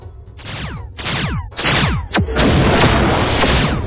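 Warships fire on a ship: a few heavy booming blasts, each trailed by a falling whistle, then a sustained crackling, rumbling roar of continued fire.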